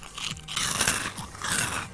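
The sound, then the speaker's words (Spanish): Someone chewing food with crunchy, wet bites and grinding bursts that come in uneven waves over two seconds, fairly faint and with no talk. “hay uno que está masticando y está marcando tremendo ASMR”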